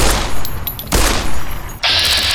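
Video game gunfire while shooting giant ants: loud, dense bursts of rapid shots that run almost continuously, break off briefly near the end, then give way to a bright, hissing mechanical noise.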